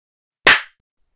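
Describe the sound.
Single sharp hand clap, a crisp slap that ends a hypnosis session, heard alone against silence and fading quickly.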